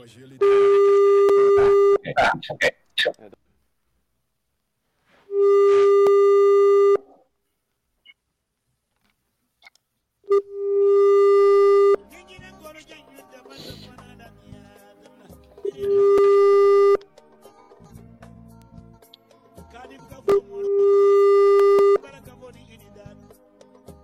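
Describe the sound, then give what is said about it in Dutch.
Telephone line tone while placing a call: five long, steady beeps recur at even intervals, with people talking in the gaps between them. “Even bellen hoor. Je gaat bellen. Komt er iemand?”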